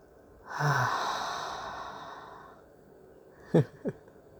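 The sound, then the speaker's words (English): A deep breath drawn in slowly and deliberately, a long airy rush of air lasting about two seconds that gradually fades, followed by two short soft mouth clicks. “I just notice how I want to take a deep breath in, and it feels natural to do so. It doesn't feel forced. So I'm going to do that now.”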